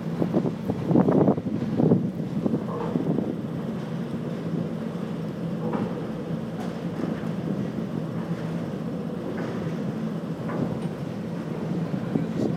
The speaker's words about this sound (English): As you can hear the noise, hopefully, of the rumbling of the wheels high above us. Very smooth indeed.